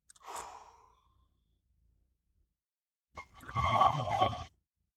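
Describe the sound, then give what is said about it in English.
A deep breath taken by a man mid-conversation: a short, soft breathy sound, then after a pause of about two seconds a longer, louder breath lasting more than a second. “Let's take a deep breath real quick.”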